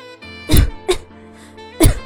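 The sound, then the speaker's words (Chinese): A woman coughing, three sharp, harsh bursts with uneven gaps, heard over a soft, sustained musical background. “雷娜一边咳嗽一边说”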